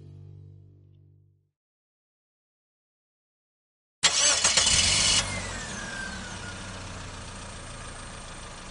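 A car engine cranks and catches with a loud, rough burst lasting about a second, then settles into a steady idle rumble. Before it, a low hum fades out and a few seconds of silence follow.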